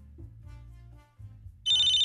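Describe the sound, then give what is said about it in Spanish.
An electronic telephone ringtone announces an incoming call. It cuts in abruptly, a loud, bright, steady tone with a slight pulsing, after a low, murmuring hum. “¿Ah, ya los callaron? No. Ya les entró llamada.”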